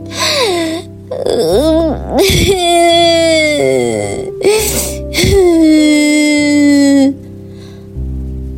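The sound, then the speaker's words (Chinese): Loud crying from a little black bear cub in a children's story, imitated by a human voice: several long, high, wavering wails and sobs, broken by short gasping pauses. “大霸觉得既生气又委屈，便放声的大哭了起来。”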